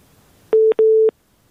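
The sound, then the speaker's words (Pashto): Telephone ringing tone on a phone-in line: two steady mid-pitched beeps in quick succession, the second longer, then silence. “بلې اړیکه اشته خو غږ نه راځي. بلې زبنګ غږ اورئ تاسو؟”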